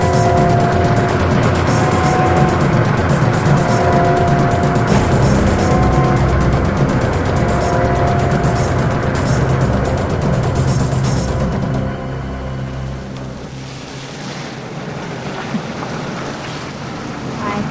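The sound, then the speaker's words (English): An old blue car drives down a dark, rain-soaked street at night: a steady wash of rain and tire hiss over a low engine rumble, growing slightly quieter toward the end. “The man in the old blue car is on the prowl again. He drives down a dark, rain-soaked street at night.”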